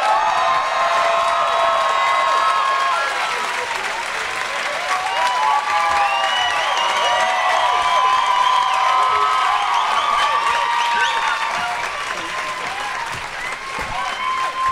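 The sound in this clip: Audience applause and cheering welcoming four guests at a live show in Portland: dense, sustained clapping mixed with whoops and shouts, loud throughout and easing slightly toward the end.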